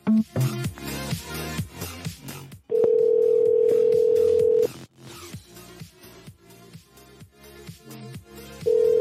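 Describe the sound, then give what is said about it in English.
Telephone ringing tone on an outgoing phone call: a steady, even tone holds for about two seconds, then another starts at the very end, both set against a dense, busy background of shifting tones and clicks. “I really want him to pick up. Maybe I'll call him back.”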